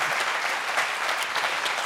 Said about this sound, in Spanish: Un aplauso para todos ellos, la verdad.